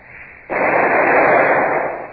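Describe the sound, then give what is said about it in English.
A ship's cannon fires a single shot across another ship's bows. One abrupt, loud blast bursts in and swells into a dense, rumbling roar that carries on to the end. “We'll fire a shot across her bows. Number two gun. A single shot across the bows. Fire!”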